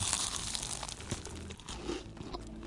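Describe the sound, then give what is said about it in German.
Butter being spread on bread for breakfast: faint, continuous crinkly scraping and rasping with small, irregular crunchy strokes throughout. “Ich stelle mir mal schnell einen Tee auf und schmiere mir ein Butterbrot.”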